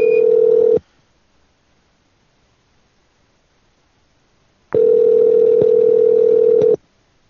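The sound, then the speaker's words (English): A telephone beep sounds as a loud, steady, mid-pitched tone, first as a short burst at the start, then as a longer one lasting about two seconds after a stretch of near silence. No one speaks. “Let me turn this fucking beep off on this phone.”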